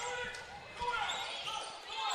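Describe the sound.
A basketball is dribbled on the court during a girls' high school game, a few dull bounces under steady crowd noise and a commentator's voice.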